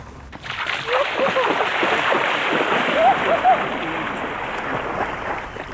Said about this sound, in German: Wir sind hier an einem wunderschönen Sand- und Kiesstrand angekommen. Also jetzt, wo wir da sind, ich gehe jetzt noch schnell in der Donau schwimmen.